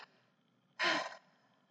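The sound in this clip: A single deep breath: one loud, airy inhale lasting about half a second, standing alone against near silence.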